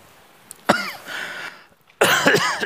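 A man with a sore throat gags and dry heaves in two harsh, strained bursts, each with rough voiced retching tones, separated by a brief quiet pause.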